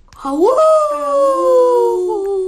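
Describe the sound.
A human voice imitates an animal howl, one long wavering wail that swoops sharply upward at the start, then holds and slowly sinks in pitch, loud and alone.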